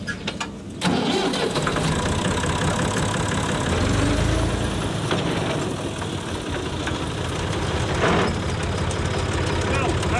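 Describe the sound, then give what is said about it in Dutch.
A tractor pulls a sprayer across a farm field in Hooghalen, spreading compost tea over the land. A steady, loud engine drone with low rumble starts within the first second and holds without pause to the end. “rijdt met zijn trekker en de spuitmachine over het perceel. En hier wordt de compostthee uitgespoten over het land.”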